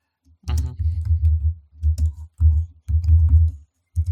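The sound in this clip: Typing on a computer keyboard to enter a note: a steady patter of key clicks in several bursts split by short pauses, with a sharper clack near the start.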